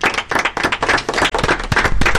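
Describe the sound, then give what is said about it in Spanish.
Loud hand clapping from a group applauding after a song is shared, many sharp claps running together into a continuous, slightly uneven patter with no pause. “Bueno, esa es la canción que quería compartir. Bueno, un aplauso.”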